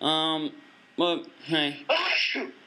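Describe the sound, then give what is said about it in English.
Violent sneezing: four loud, strained, voiced bursts in quick succession, each separated by a short gap, the final one longer and breathier than the rest. “Violent sneezing. Well, it's pretty intense there. Violent sneezing.”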